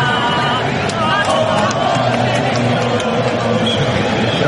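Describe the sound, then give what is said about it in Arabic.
Argentine football fans, over 40,000 supporters of the national team, roar at a World Cup match. A dense, steady wall of many voices holds at constant loudness throughout. “المنتخب الأرجنتيني يلقى تشجيع أكثر من 40,000 من أنصار”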